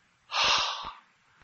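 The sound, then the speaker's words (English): A voice imitates a breathy H sound: a single loud rush of exhaled air lasting just over half a second, with a short trailing breath, then near silence. “he put the fifth letter of the Greek alphabet there. And it's an H sound.”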